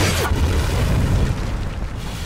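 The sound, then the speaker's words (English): A bazooka blast explosion: one sharp, loud boom at the start, then a heavy low rumble that keeps going to the end. “He's going to need something a lot bigger to get through this. What's that, a bazooka?”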